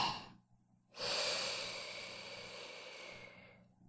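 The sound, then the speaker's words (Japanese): A deep, slow breath is drawn in, an airy, soft rush lasting a few seconds after a brief faint breath at the start, quiet and alone. “大きく、深く、ゆっくりと。せーの、吸って”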